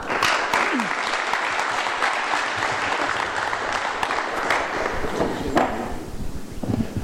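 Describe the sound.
An audience applauds to welcome a speaker at a talk, with dense, steady clapping that stays loud and even for the whole stretch.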